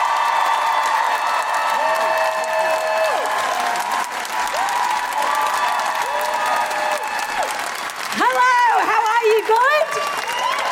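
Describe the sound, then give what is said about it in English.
Loud applause and cheering from a live audience welcoming a comedian to the stage, a dense, sustained roar of clapping with high whoops and cheers breaking out near the end. “Put your hands together and make wonderful, welcoming Guilty Feminist noises for the wonderful Felicity Ward!”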